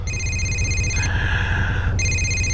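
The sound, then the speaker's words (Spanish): A telephone rings with an incoming call: a steady electronic ringing tone that drops to a lower pitch for about a second mid-clip, then returns, all over a low background rumble. “Sí, tiene que atender la puta llamada.”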